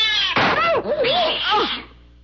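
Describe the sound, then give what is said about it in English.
An angry cat yowls loudly while attacking, a harsh snarling cry whose pitch wavers and swoops up and down before trailing off, heard alone. “That cat was mad. He was attacking.”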